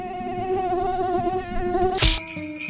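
Biting insects in the tundra hum in a high, wavering, steady drone, like a swarm of mosquitoes. Near the end the hum is cut off by a sudden burst of noise.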